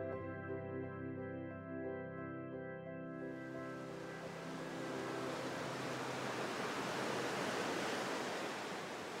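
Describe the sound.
Ocean surf at a beach, a broad, steady wash of waves that swells in after a few seconds of held tones and then rolls on evenly and fairly softly to the end.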